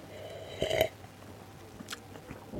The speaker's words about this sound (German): Ich bin aber auch Europas größter Sauerbier-Fan und dementsprechend natürlich eine schöne Kombination. Und auch da probieren wir mal. Nehmen wir hier ein Schlückchen.